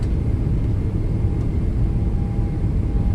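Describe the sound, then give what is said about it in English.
Spacecraft thrusters firing at full throttle, an unbroken, dense low-pitched roar with a faint steady whine above it. “Cleared for throttle up. Thrusters at 100%. All systems green.”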